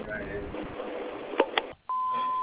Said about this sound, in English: We can't come to the phone right now. She'll leave a message after the beep.